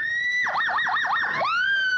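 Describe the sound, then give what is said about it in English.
A distress holler at a hollering contest, a voice imitating a siren: a high, steady wail broken by about five quick downward swoops, then gliding back up into a sustained tone. “My holler was a distress holler. It sounded like a siren.”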